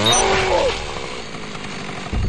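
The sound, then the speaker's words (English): A chainsaw attack in a video game gives a loud, harsh, buzzing engine roar. A bending pitch sweep in the first moment is followed by a steady, slightly lower drone that lasts to the end. “As you can tell, he got close enough to hit me, even though I got him with the chainsaw.”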